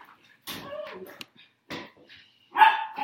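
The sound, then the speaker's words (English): Dogs barking at home: a few sharp barks and yips come in separate bursts, loudest at the end, with a person's voice heard around them. “sorry, my dogs are barking in the back. My dogs are barking in the background.”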